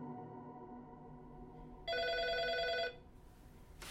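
A hotel room telephone ringing as a call is placed: a single bright, trilling ring lasting about a second over a faint low hum, followed by quiet.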